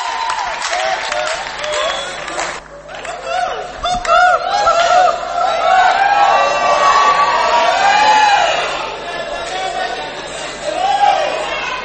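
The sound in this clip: An audience cheers and applauds as a singer is welcomed onto the stage. Dense clapping, whoops and crowd noise with shouted voices mixed in keep up loudly throughout.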